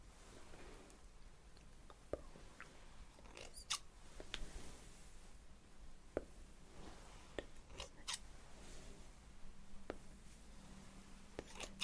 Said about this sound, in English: Snip. Snip. Snip.